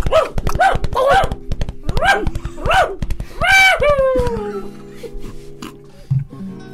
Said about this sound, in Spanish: Tres o cuatro galgos corren a su costado, ladrando con desesperación.